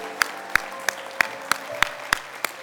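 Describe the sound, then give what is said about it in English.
Rhythmic hand clapping from an audience at a worship service: eight sharp, evenly spaced claps in a steady beat over a low, sustained hum. “Give him a hand clap of praise.”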